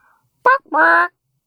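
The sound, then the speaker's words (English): A person imitates a chicken call with two vocal bursts: a short sharp cluck, then a longer held squawking note, alone against silence. “What do you think your chicken name would be? I think mine would sound something like this.”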